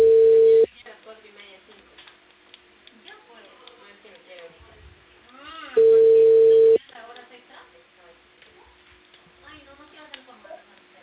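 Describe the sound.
Telephone busy tone after a dropped call: a loud, steady mid-pitched tone sounds for about a second, stops, and returns once more later. Voices talk between the two tones.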